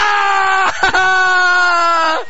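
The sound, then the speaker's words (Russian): Piercing scream, a loud, high, sustained voiced cry lasting about two seconds, with a brief catch early on before it carries on and drops away at the end. “Дамы и господа, этот пронзительный крик!”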